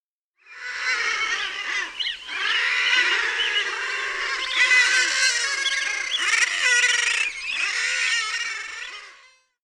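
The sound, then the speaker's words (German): Common guillemots call in a crowded seabird colony, a dense, continuous chorus of harsh, overlapping croaking cries that swells in, holds loud for several seconds and fades out. “Die Trottellummen. Wenn ihr mich fragt, wer seine Eier unter so vielen anderen immer wieder erkennt, ist ganz bestimmt nicht trottelig.”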